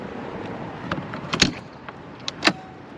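An RV camper door being tried and opened: a few sharp, metallic clicks and latch rattles, the last one loudest, over a quiet steady hiss.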